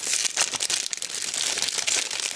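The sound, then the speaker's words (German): Crinkling of the sealed plastic wrapping on a pack of 40 tea bags as it is opened: a continuous, crackly, fairly loud rustle with dense small snaps and no talk. “Aroma verschweißt, 40 Teebeutel und ich kann nicht anders. Ich muss das jetzt öffnen. Es raschelt sehr, es tut mir leid. Moment, ich öffne das jetzt und dann rede ich weiter.”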